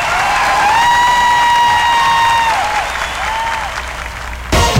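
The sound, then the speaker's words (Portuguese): Loud audience applause mixed with cheering, a dense, sustained clatter of many hands that eases slightly toward the end before a sudden sharp burst closes it. “salva de palmas, Fabinho Melo.”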